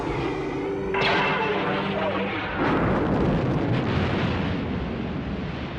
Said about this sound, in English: Or the main weapon on the Death Star. Commence primary ignition.